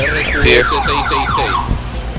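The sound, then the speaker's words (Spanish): A car alarm wails in repeating swooping, warbling tones that sweep up and down several times, loud and steady, over a low rumble of street traffic. “Aparte del ruido de la alarma del carro, al mismo tiempo se está escuchando, pues, ¿no?”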